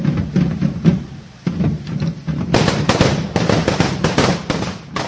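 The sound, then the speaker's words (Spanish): Firecrackers and pyrotechnics go off at a Catalan correfoc devil parade in Prague. Dense, rapid crackling bursts and pops grow louder and more continuous in the second half. “Cerca de 50 diablos provistos de diversos artefactos de pirotecnia y fuego y acompañados por el estruendo de tambores se dirigieron desde el puente de Carlos a través de la isla”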